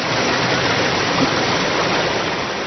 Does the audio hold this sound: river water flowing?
yes